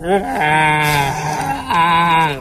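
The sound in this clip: A person imitates a donkey braying, giving a loud, drawn-out voiced bleat in two sustained pushes that step down in pitch, without the high whistling part of a real bray.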